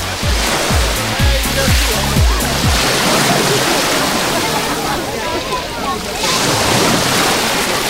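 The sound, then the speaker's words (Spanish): Mediterranean sea waves washing against a beach breakwater on a warm, breezy day on a tropical coast, a loud, continuous rushing surf with low, rhythmic buffeting at the start and wind noise throughout. “con un mar que hoy suena así. Orientamos el micro al rompeolas.”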